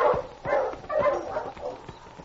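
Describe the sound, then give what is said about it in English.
A dog barks, a husky from a sled dog team, giving a few faint, muffled barks at a fairly even pace with no one talking over them. “Yeah, that is a dog.”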